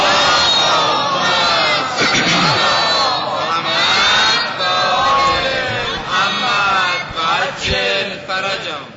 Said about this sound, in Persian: همه با هم صلوات محمدی ختم کنیم.